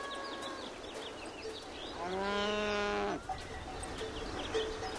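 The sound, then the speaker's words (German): A single long, low moo from one cow in a herd of alpine cattle grazing on a hillside pasture. It stands out for about a second against a steady outdoor background. “Eine Herde von Almkühen grast am Hang.”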